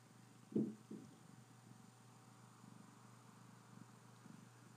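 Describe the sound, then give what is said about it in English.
A cat purring, a low, steady rhythmic rumble that runs quietly throughout, with two brief louder bursts near the start. “This is the sound of the cat purring like a race car.”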